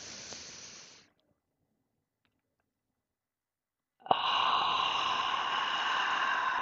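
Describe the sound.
Deep breaths exhaled audibly during a breathing exercise: a soft, airy hiss of breath fades out, a few seconds of silence follow, then another long exhale begins abruptly and continues.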